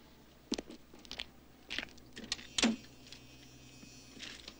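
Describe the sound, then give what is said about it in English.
A man getting into his car, heard as a few quiet, sharp clicks and thumps of door and handle with light rustling in between, over a low, steady background hum. “With a worried gaze, Clovis turns back to his car, walks over, and gets in.”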